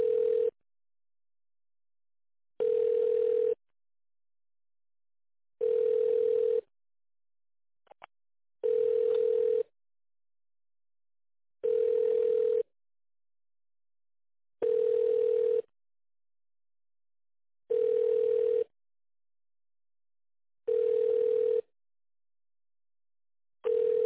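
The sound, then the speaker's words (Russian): Ringback tone from a telephone connecting a call to a mobile: eight steady mid-pitched tone bursts, each about a second long, repeating evenly about every three seconds with silence between, and no talk. “давайте попробую на мобильный соединить.”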